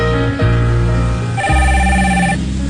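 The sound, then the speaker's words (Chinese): Electronic mobile phone ringtone for an incoming call: a loud melody of sustained, bright synthetic tones that changes pitch a few times, playing alone with no talk. “换你手机这种东西哦，要记得关机的，啊，不然那半夜来电跟那个鬼来电一样，吓死人了”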